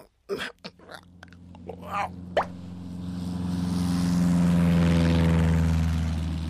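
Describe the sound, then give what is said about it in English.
An airplane flying overhead, its propeller drone swelling steadily to a loud, sustained peak, after a few sharp clicks and pops at the start. “It's the sound of a flying plane.”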